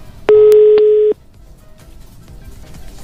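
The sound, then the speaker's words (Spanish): A single loud, steady telephone keypad tone sounds for just under a second during a prank phone call, then gives way to faint, low background noise. “ya me está marcando tu hermanita”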